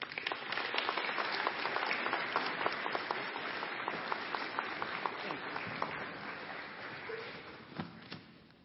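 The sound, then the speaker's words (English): Audience applause welcomes a guest speaker at a Celebrate Recovery gathering, with dense, steady clapping that holds throughout and eases slightly toward the end. “Let's give a hand to Diane.”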